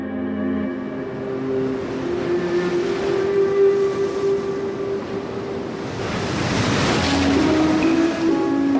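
Sea waves wash onto a sandy beach lined with high cliffs, a broad rushing surge that holds steady and then swells louder toward the end.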